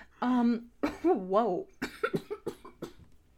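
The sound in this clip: Harsh, voiced coughing after someone inhales spit, two strained bursts in a row, followed by a quick run of choppy speech.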